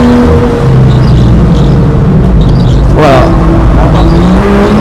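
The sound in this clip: BMW M2 sports car driving, its engine a steady low drone with a brief rising surge partway through, while a man talks over it.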